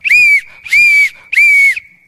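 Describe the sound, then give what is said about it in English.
A person imitates a man blowing a whistle with three loud, shrill blasts. Each lasts about half a second and holds a steady high pitch, with short bends at its start and end. “And he started doing this. He had a whistle. He started going.”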